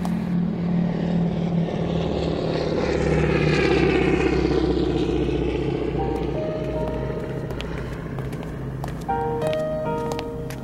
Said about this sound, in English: That 247 has taken off.